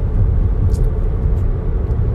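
A car driving home is heard from inside as a steady, low road rumble and engine drone. A few faint ticks sit above it, and no one speaks.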